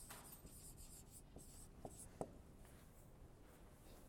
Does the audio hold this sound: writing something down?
yes